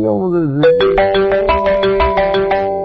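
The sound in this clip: A telephone rings with a melodic ringtone, sustained tones carrying a steady run of rhythmic, repeated pulses, fairly loud throughout.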